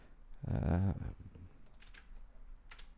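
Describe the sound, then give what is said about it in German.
Computer keyboard clicks while text is pasted in: a few light, quick taps near the end, following a short spoken moment. “ich paste das mal eben hier in.”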